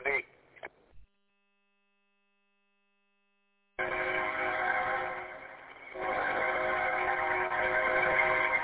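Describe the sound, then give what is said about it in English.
A train passes near a home by Ames Field. After a brief voice at the start and a silent gap, a loud sustained tonal sound with strong harmonic bands begins and runs steadily to the end. “And there's a train coming.”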